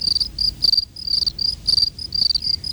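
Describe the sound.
Crickets chirp in shrill, high-pitched pulses, many short bursts repeating in quick, uneven clusters, loud and alone over a faint low background.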